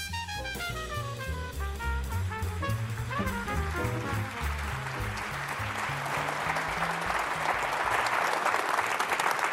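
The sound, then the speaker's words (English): Live audience applause greeting a political journalist guest at a recorded event, building from under fading music into a loud, sustained ovation that swells toward the end. “They really like you here. Welcome. They really like you. Do you get that kind of applause every time you do”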